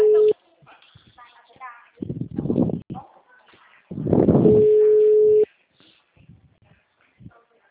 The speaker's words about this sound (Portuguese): Alô, caiu a ligação